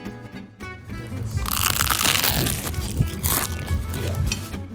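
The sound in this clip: Crunching as someone bites into crispy food with a crunchy crust: a burst of dense, crackling, brittle noise begins after a brief quiet start and continues as steady, loud chewing crunches for several seconds, with no speech.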